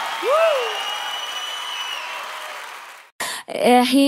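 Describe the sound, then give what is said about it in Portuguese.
Applause from a live show audience at a concert recorded for a DVD: a steady, dense wash of clapping that breaks off abruptly near the end, followed by a brief voice. “Salve de palmas pra todas as minhas fãs lindas, maravilhosas e cheirosas!”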